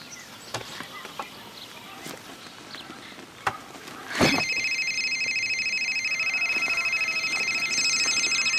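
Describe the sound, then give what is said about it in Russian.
A telephone ringing: a few scattered clicks and knocks, then a bright electronic ring tone starts abruptly and holds steadily and loudly to the end. “Ей звонит телефон.”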